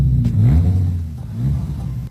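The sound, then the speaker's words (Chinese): A twelve-cylinder twin-turbo car engine revs with a deep, loud, continuous rumble that swells slightly, heard alone without talk. “你们看这部车多么先进。 现在发动。”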